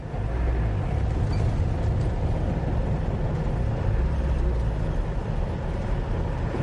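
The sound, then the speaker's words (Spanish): Steady, loud engine rumble of a car at an army checkpoint in a film scene, a continuous low drone with no distinct separate events. “El soldado mueve el brazo varias veces, él cambia la marcha y decelera.”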